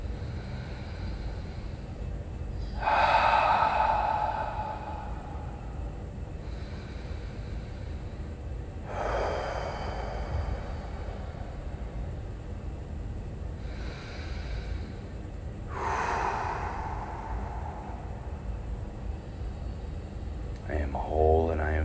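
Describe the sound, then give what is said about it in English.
Deep, slow sweeping breaths during a breathing exercise, with three long, airy breaths spaced several seconds apart over a steady low background noise. “Let's do 3 deep sweeping breaths.”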